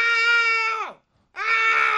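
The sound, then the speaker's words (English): A person screams twice: a sustained, high, harsh cry that slides downward in pitch as it fades, a short silence, then a second strained scream held steady to the end. “They don't even give you a number now. It's just a level of screaming.”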